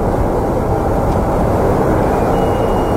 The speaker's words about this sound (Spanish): Pero ese está tomado de afuera, pues tendría que ser uno tomado desde adentro del avión, ¿o no? Sonido de avión despegando.